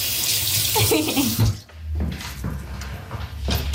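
Water runs from a tap for hand washing in a children's washroom with small toilets, a loud continuous rushing splash with a brief dip midway before flowing on.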